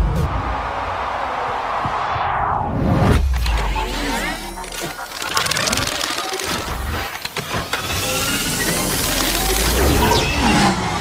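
Synthesized light cycle sound effect from a sci-fi movie: a sweeping tone slides downward, then gives way to whirring, shifting, warbling electronic whooshes and mechanical textures that surge and change throughout.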